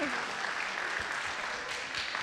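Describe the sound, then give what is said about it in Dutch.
Applause from a group welcoming a new member to a youth team, a dense, even patter of many claps that holds at steady loudness from start to finish. “Applausje daarvoor.”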